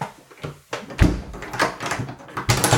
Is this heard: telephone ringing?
no

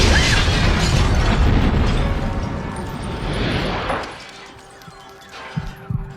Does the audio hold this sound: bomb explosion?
yes

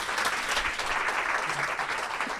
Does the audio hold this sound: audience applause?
yes

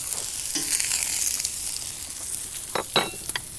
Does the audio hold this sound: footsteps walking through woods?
no

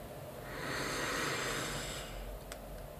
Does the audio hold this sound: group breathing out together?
yes

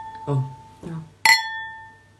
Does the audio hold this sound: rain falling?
no

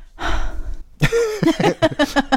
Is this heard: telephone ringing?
no

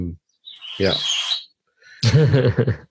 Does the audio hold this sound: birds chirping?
yes

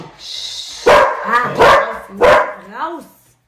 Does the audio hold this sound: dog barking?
yes

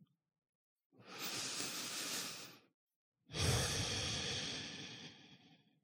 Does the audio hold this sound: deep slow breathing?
yes

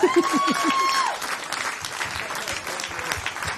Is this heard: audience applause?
yes

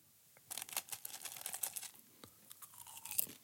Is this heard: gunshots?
no

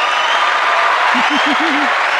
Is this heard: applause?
yes

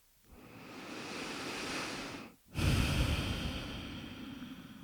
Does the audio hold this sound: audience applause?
no

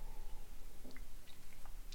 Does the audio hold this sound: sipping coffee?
yes

